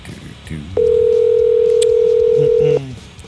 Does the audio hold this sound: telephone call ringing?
yes

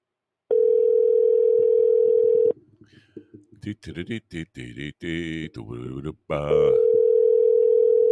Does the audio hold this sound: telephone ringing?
yes

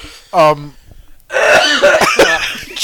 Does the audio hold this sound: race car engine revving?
no

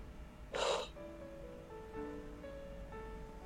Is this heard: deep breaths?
yes

